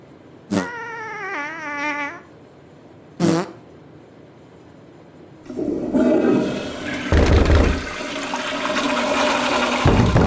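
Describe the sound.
A toilet flushes in a bathroom, a loud rushing surge of water that starts midway and roars steadily to the end, after two short, high, wavering vocal sounds in an otherwise quiet room.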